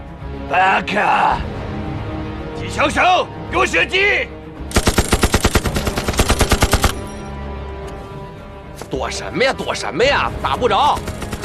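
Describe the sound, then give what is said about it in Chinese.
Rapid machine gun fire in a combat scene, a dense run of many sharp, evenly spaced shots lasting about two seconds. Men talk before and after the firing. “机枪手，给我射击！”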